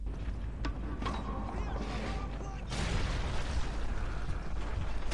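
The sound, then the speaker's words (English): Gunfire from the video game Jazz Jackrabbit: a few sharp pops and explosive bursts over a dense, rumbling background that grows louder partway through. “It was that gun one, wasn't it? It was that shooting one.”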